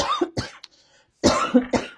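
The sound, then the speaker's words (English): Harsh human coughing in two clusters of several coughs each, loud and raspy, separated by a brief quiet gap. “Got all that coughing. Recorded every ounce of it.”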